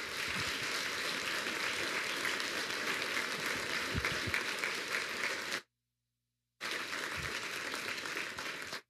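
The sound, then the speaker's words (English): Dense, steady audience applause welcoming a bishop as speaker, a continuous wash of clapping that cuts out abruptly for a moment and then resumes. “So would you put your hands together, kindly welcome our good friend, Bishop Darrell Harris.”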